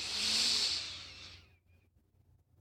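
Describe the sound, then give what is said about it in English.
A single deep breath drawn in through the nose during a guided meditation: a loud, airy hiss lasting over a second that then fades into near silence. “Let's take three deep breaths together as we end this meditation. Breathe in the color white through your nose.”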